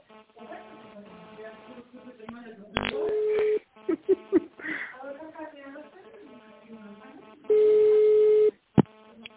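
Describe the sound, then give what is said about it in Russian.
Ringing tone on a telephone line while a call is transferred: two long, steady, mid-pitched tones several seconds apart, with quieter murmuring line sound and brief clicks between them. “Перевожу звонок.”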